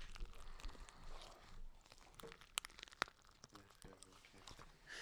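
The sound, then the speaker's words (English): Slime with beads mixed in is squished and kneaded, giving faint, wet crackling with a few sharper clicks, and quiet talking alongside. “It sounds so gross. Oh, okay. It's slime. With balls in it.”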